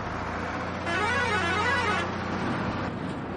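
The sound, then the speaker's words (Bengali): A deluxe bus's horn honks as the bus departs, a bright, blaring tone rising above a steady rumble of engine and road noise. “বাসের মাথায় motorcycle চড়ে গেছে, দুবার horn দিয়ে deluxe বাস রওনা দিয়ে দিল।”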